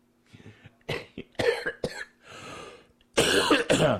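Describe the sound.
Throat clearing and harsh coughing from a person pausing mid-speech: several rough bursts of varying length come one after another, loud and alone without talk.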